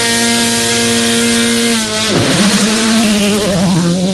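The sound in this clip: A rally car's engine drones loud and steady at the start of a stage. The rich harmonic tone holds, dips sharply in pitch partway through, then settles and carries on.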